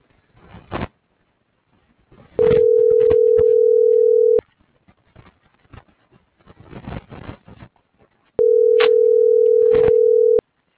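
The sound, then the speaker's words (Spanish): Steady telephone tones while an operator is being dialed: two long, even tones of about two seconds each, separated by scattered clicks and handling noises. “Solo se le estoy marcando un operador.”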